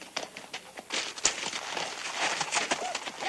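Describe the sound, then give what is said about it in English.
Hoofbeats and scuffling as men mount their horses on a dark street, with many irregular clops and thuds at moderate loudness. “McLeod and his men walk out of the saloon. Mississippi peers down the dark street and watches them mount their horses.”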